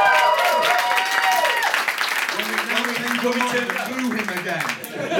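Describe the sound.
Audience applause for a sound technician at a live show: a dense burst of clapping with cheering voices over it, loud at first and tapering slightly as talk and laughter rise through the crowd.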